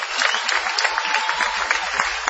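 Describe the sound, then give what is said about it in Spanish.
An audience at a live show in a Madrid hall applauds, a steady, dense patter of clapping that holds at an even, moderate level throughout. “Y después de este aplauso”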